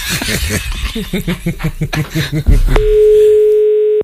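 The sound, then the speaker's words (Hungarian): A single long, steady, mid-pitched telephone ringing tone sounds as an unanswered call goes on. It follows a stretch of people talking and chuckling. “Nem veszi föl, hívunk más.”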